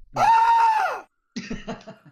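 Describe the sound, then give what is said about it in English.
A man's scream sound effect: one loud, sustained, high wailing cry lasting about a second that falls away at the end, followed after a short silence by a brief choppy burst of voice. “We don't have the guy screaming though. No? We gotta have the guy screaming.”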